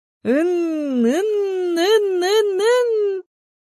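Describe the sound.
A baby boy's moaning cry, one sustained, wavering wail lasting about three seconds. Its pitch dips and wobbles several times, like a creaking whine, and it stays loud and unbroken until it stops.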